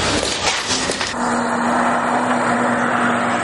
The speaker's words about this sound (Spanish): Luego van de nuevo en el coche